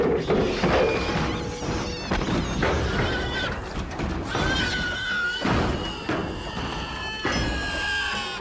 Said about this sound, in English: It's a major design flaw, and I'll insert the noise of Ed 209 falling now.